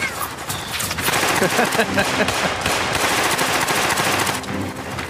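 Rapid gunfire roars in sustained, loud, crackling volleys, a dense and almost unbroken stream of shots from start to finish.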